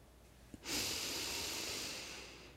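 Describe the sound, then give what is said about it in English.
A person breathes out fully during a guided breathing exercise: one long, airy, steady exhale begins abruptly after a faint click and slowly tapers off over about two seconds. “Exhale fully.”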